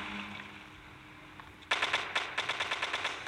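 Automatic gunfire from a weapon in an online video game: after a quiet stretch of low background sound, a rapid string of sharp, loud shots begins abruptly and continues steadily to the end.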